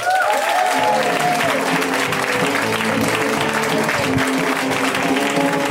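Comedy-show crowd applause greeting the next comedian as he comes onstage: thick, sustained clapping at a constant loud level throughout.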